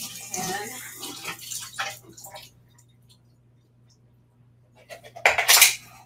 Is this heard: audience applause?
no

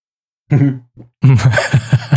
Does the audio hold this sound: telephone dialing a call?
no

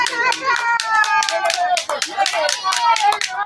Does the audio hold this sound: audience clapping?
yes

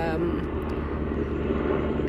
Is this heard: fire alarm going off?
no

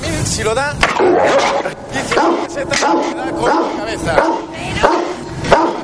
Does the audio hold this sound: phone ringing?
no

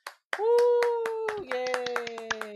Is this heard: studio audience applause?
yes

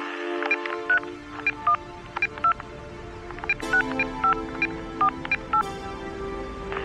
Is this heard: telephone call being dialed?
yes

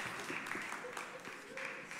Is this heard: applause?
yes

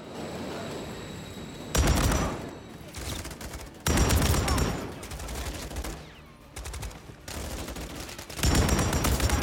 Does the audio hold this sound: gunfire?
yes

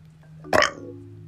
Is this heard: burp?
yes

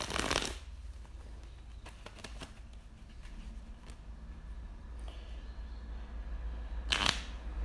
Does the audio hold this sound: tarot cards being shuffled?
yes

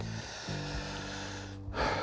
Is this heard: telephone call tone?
no

